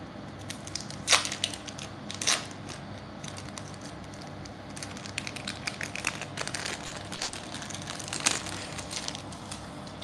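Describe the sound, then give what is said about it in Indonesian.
Crinkling of a plastic packet of sliced mozzarella being opened: a few sharp crackles and crunches rise over a steady, quiet rustling, with no talk. “Buka mozzarella-nya dulu. Ini mozzarella lembaran guys.”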